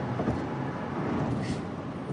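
Road noise from a car driving on a highway during a road trip, a steady low rumble blended with continuous hiss, with no talking.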